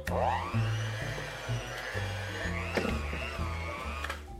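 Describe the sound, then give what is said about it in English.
An electric hand mixer with a paddle attachment whirs on its lowest speed, level 1, working flour and sugar into a dough. It makes a continuous, even motor drone whose tone wavers slightly as the load shifts. “I'm gonna do as much as I can with my hand mixer. It's only on level 1 right now.”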